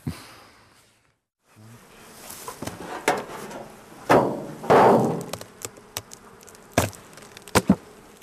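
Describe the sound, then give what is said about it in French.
Honeybees buzz around the breeding hives of an apiary as the hives are checked. A low, steady drone runs throughout, broken by many sharp knocks and clicks from handling. “Retour au rucher, où nous allons cette fois contrôler les ruches d'élevage.”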